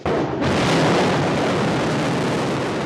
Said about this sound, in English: Back in March, California-based aerospace company Astra successfully sent a rocket into space from Kodiak's Pacific Spaceport Complex.